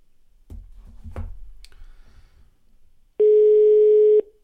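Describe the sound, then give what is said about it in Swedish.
A telephone line clicks a few times while a call is being placed, then a single steady ringing tone sounds loud and even for about a second. “nu uh, testar vi att ringa Torbjörn igen.”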